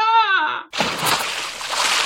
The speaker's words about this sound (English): He's fallen in the gunge tank.